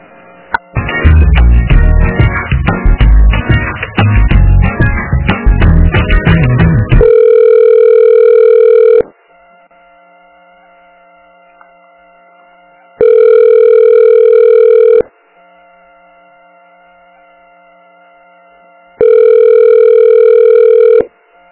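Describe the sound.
A telephone call to a vaccine line goes unanswered. After several seconds of dense, noisy sound, the ringback tone sounds three times, each a long steady tone separated by silent gaps.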